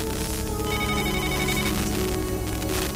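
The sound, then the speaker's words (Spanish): Telephone bell ringing with an incoming call on a radio call-in line: a dense, loud, unbroken metallic ring that fills the whole clip without a pause, with no voices over it. “al parecer creo que ya tenemos una llamada. Vamos a ver quién nos llama.”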